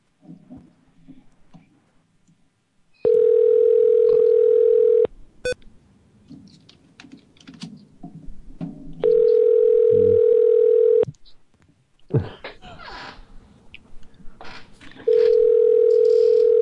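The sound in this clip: Ringback tone of an unanswered outgoing phone call: three long, steady electronic ring tones of about two seconds each, evenly spaced, the last cut off, with faint clicks and background noise in the gaps.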